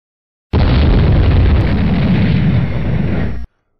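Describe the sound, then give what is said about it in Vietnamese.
Explosions rumble inside a sealed chamber as one dense, loud, low roar that starts abruptly, holds for about three seconds with little change, then stops sharply. “Bên trong mật thất, tiếng nổ ầm vang không ngừng, bốn vách tường xung quanh cũng kịch liệt chấn động.”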